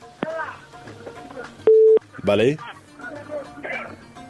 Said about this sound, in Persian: تماستان وصل شده عزیز